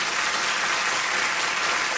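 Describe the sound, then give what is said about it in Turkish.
An audience applauds a women's choir group at a radio artists' concert, a dense, steady wash of clapping that stays loud and even throughout with no voices over it. “Şef Mustafa Acar yönetimindeki Ankara Radyosu ses ve saz sanatçılarından oluşan topluluğumuzun kadın koristlerine bir kez daha teşekkür ediyoruz alkışlarınızla.”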